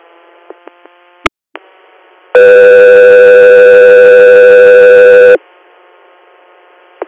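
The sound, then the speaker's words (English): A radio dispatch alert tone for an ambulance inter-facility call sounds as one loud, steady, buzzy tone lasting about three seconds. A few faint clicks come before it, over low radio hiss. “stand back for tones”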